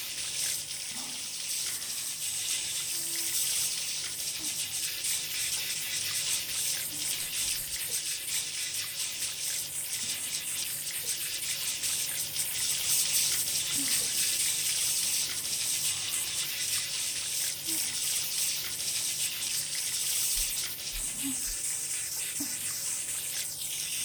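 Warm water pours steadily while hair is rinsed, a continuous hissing rush that holds an even level throughout without a break.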